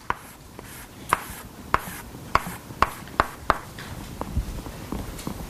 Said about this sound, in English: Okay, so with a primitive lattice vector, I can draw. In this case, I have a parallelogram.